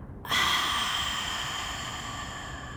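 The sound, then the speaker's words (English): A deep breath drawn in and let out through the mouth, heard as a sudden breathy rush of air that starts abruptly and then holds steady and fairly loud for over two seconds, with no talking. “Let's take a big breath in together. Filling up our entire body. And on the exhale, let's let it go through our mouth.”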